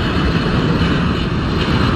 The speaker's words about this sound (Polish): A pasażerowie usłyszą taki komunikat i dźwięk silnika samolotu.